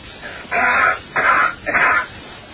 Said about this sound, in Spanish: Fíjate cómo tose.